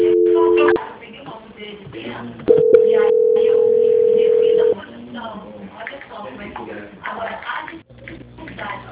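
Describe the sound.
Telephone call-transfer tones come over a phone line: first a short, loud tone, then a long steady tone lasting about two seconds, with quieter busy sounds between and after them.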